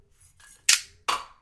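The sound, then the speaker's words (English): Two sharp snapping pops, each with a brief trailing rattle, as a novelty bottle opener fires a bottle cap off; both bursts are loud and sudden, with fainter handling noise before them. “we're going to include one of these cool bottle openers. Yeah, let's see it in action.”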